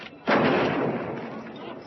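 One loud, booming gunshot bursts out and rolls into a long, fading tail.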